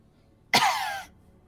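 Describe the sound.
A single harsh cough with throat clearing from someone with dust in their throat, one brief burst alone against near silence.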